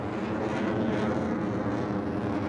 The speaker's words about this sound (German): Der Gestank von verbranntem Kerosin liegt in der Luft, während die Eurofighter zum Start rollen.